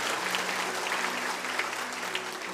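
A church audience claps hands in praise during a Sunday service, a dense, continuous patter of many hands, steady and moderately faint throughout.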